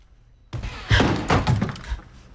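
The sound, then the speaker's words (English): A slightly ajar door is kicked open: a sudden heavy thud followed by a few more knocking, rattling impacts that fade out in under two seconds. “As on the screen, it's slightly ajar, and she tries to peer past it, then kicks it open.”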